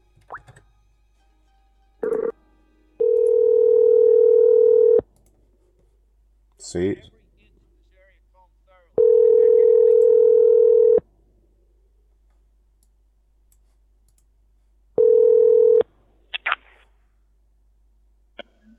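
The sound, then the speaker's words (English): An outgoing Skype call rings three times as steady electronic tones separated by long pauses, the third ring cut short, with a few scattered clicks and a brief spoken word between rings. “Yeah, fucking Skype. Bane of my show. Right, now you're going to hear it ring.”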